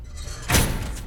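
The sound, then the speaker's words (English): A morgue compartment door is shut with a single muffled thud, accompanied by a brief rush of air, over a low background hum. “She shuts the door.”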